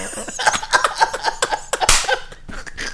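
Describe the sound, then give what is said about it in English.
One abrupt, loud sneeze bursts out partway through, brief and explosive, surrounded by softer breathy vocal sounds. “Sorry, I sneezed.”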